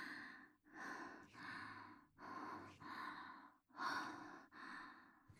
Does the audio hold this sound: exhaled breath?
yes

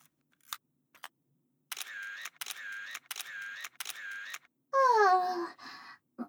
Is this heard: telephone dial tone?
no

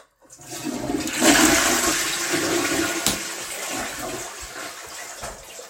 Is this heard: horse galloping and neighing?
no

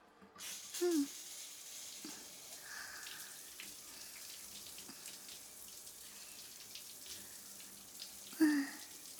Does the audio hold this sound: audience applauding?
no

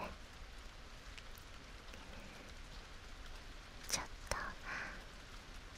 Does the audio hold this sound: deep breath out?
no

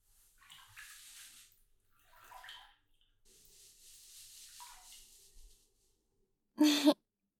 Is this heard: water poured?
yes

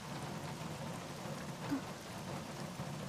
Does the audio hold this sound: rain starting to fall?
yes

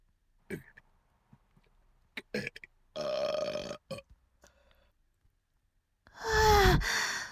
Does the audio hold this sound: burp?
yes

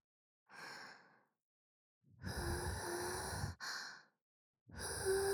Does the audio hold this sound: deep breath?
yes

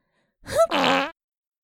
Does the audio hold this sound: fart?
yes

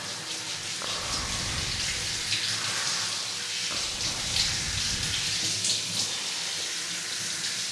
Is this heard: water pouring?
yes

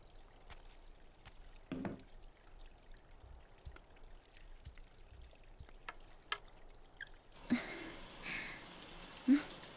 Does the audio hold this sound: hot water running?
yes

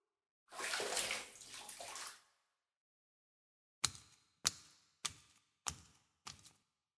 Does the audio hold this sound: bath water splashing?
yes

